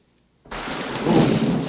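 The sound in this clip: Torrential rain with thunder at night bursts in suddenly after a brief silence, a loud, dense, steady roar of noise that swells slightly and holds to the end.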